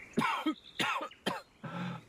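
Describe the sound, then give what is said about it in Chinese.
Stifled, suppressed coughs: a few short, muffled bursts in quick succession, fairly faint and heard alone without talk. “压抑着咳了两声”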